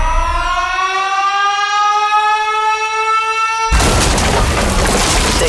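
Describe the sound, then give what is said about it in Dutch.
A loud alarm siren wails steadily, its tone creeping slightly upward. It is then abruptly overtaken by a sudden, loud, booming blast of noise that fills the rest. “Open de app als je het alarm hoort en stuur je idee maar door.”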